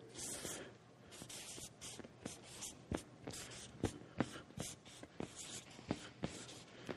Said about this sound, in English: I'll just write them up here.